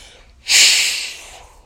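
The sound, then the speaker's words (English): A deep breath during a guided meditation: one loud, airy rush of breath that swells quickly and then fades slowly, with no voice. “Big breath in and out, shift.”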